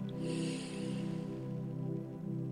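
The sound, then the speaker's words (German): Slow, deep breath in during a guided meditation, a soft airy hiss that swells early and fades, faint over sustained low droning tones underneath. “Und noch einmal, weil es so schön war, atme tief in euren Schoß.”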